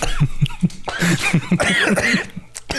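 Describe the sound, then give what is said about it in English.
Someone coughs after accidentally inhaling a sip of flavored orange water, letting out a fit of many rapid, rhythmic, harsh coughs that continue loudly and unevenly to the end. “I think I breathed some of my drink. The orange drink hit him hard.”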